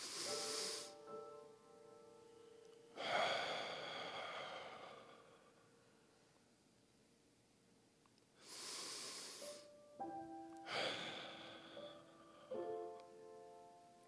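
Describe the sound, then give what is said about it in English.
Two deep breaths taken during a guided meditation, each a soft, airy inhale followed by a longer, hissing exhale, separated by quiet pauses, with faint sustained musical tones in the background. “We take two deep breaths.”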